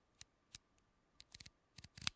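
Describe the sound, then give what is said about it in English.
Aperture ring of a 135 mm manual camera lens being turned, a faint series of small, sharp mechanical clicks at irregular spacing, coming in a few separate clicks and then tighter clusters toward the end. “I'll put this up against the mic, but like, just like if I turn the, we'll be quiet. We turn the aperture ring. You can kind of hear that click.”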